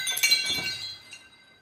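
A glass object is smashed. A brief, faint tinkling clink and crackle of glass fades out within about a second.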